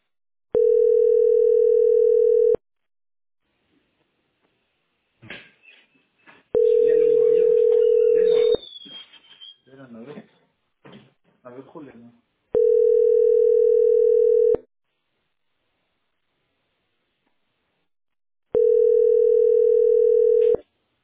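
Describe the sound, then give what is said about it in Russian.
Ringing tone of a telephone call waiting in a queue: four steady, mid-pitched tones about two seconds each, separated by long gaps, with people talking between and over one of them. “А это я звоню в бухгалтерию или куда?”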